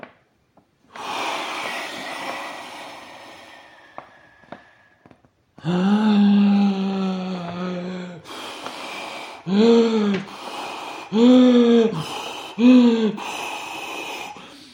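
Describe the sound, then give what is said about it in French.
A voice imitates a wolf huffing and blowing at a house. A long breathy blow and a drawn-out voiced blow come first, then three shorter, hooting puffs of breath, with no words spoken. “Il souffla, souffla et souffla encore, jusqu'à perdre haleine.”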